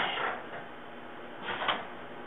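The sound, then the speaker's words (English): A screen printing machine at a nonprofit's print shop runs with a soft, steady mechanical whoosh and hiss, swelling briefly a couple of times. “This is the sound of the screen printing machine at Tribe One.”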